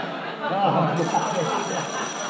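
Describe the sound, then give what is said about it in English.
A telephone rings with a high, steady electronic bell tone that starts partway through and continues to the end, while a person talks over it. “I think I better answer the phone because it's liable to ring any minute”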